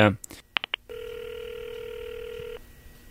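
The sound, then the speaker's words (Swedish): Telephone call being dialed and connected: a few short high dialing beeps in quick succession, then a long steady ringing tone that holds for well over a second before cutting off abruptly. “Ska jag ringa ett kort samtal till barnen i Biafra.”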